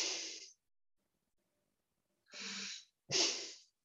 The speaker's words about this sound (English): And then we're forcing the breath through the nostrils like.